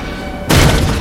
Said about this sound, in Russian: Рядом с подводной лодкой поднимаются взрывы.